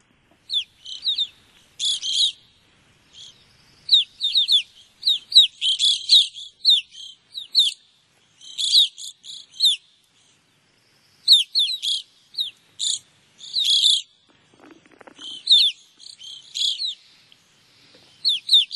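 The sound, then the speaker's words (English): Evening grosbeak calls come as many sharp, high chirps with a slight trill, grouped in irregular bursts separated by short silent gaps, clear and alone over a quiet background. “I do have some audio of an evening grosbeak, so let's take a listen to that.”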